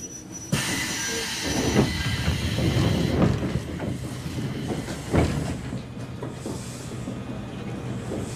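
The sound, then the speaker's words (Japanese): A train pulling into a station: steady low rumble of wheels and carriages with a few clunks and rattles, fairly loud throughout and easing slightly toward the end. “東武線との接続駅赤城に到着です。”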